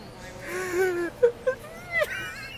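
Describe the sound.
A person makes wheezy, whimpering cries, high wavering whines broken by a few short sobbing gasps, fairly soft and alone.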